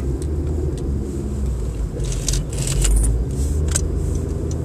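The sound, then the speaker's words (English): Car being driven, heard as a steady low engine and road rumble with faint light rattles and clicks on top and no talking. “I have to do a bit of driving right here.”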